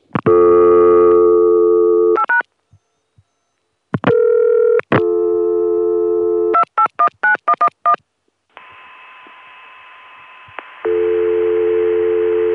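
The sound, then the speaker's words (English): A PBX dial tone answers after an internal code is dialed, the same tone heard when dialing 9 for an outside line. Loud call-progress tones and a rapid string of touch-tone digits come first, followed by a steady dial tone and then another sustained tone. “this is the very same dial tone that people in the Richmond office get when they dial 9 for an outside line.”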